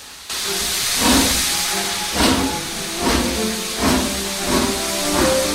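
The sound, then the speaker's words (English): Steam train pulling away amid a loud, continuous hiss of steam that starts abruptly, with a steady rhythm of periodic chuffing bursts rising and falling over the hiss. “The man heaves Toad up into the train and it pulls away in a cloud of steam.”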